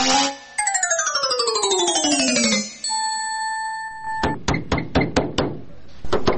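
Knocking on a door: a quick run of several sharp, hard raps. Before them come a descending musical swoop and a few held bell-like tones.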